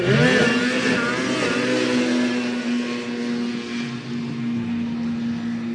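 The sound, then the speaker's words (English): Two snowmobiles launch off the line in a drag race with a loud, sustained engine roar. A steady high whine holds throughout as the sleds accelerate away. “The sleds tear off into the distance, hitting 0 to 60 in about 2 seconds, some of them topping out at 100 miles an hour.”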